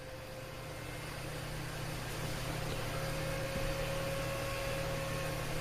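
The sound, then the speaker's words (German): Steady hum of a worn-out cooling fan at the end of its life, a faint continuous drone with a thin tonal whine running through it, unchanging throughout. “im Hintergrund auf dem Hof fährt eine Kehrmaschine von der Stadt durch die Gegend, durch dieses Brummgeräusch. Aber das ist ja dieser Lüfter, der einfach am Ende ist.”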